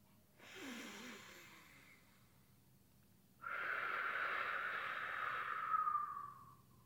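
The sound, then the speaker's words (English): A child-style breathing exercise of breathing in through the nose and out through the mouth: one slow, soft inhale, a pause, then one long, louder, airy exhale with no talk. “Let's breathe through our nose and then out our mouth.”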